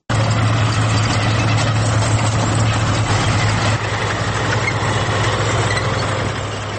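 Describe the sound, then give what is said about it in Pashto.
A decades-old Soviet-made T-25 tank engine runs, still in service with an Afghan army tank battalion. It makes a loud, steady, low idling rumble with a constant hum that drops slightly in level partway through. “دا د لسیزو زور د پخوانی شوروي اتحاد ساخت د ټی 25 ټانک غږ دی چې لا هم په افغانستان کې ترې کار اخیستل کیږي.”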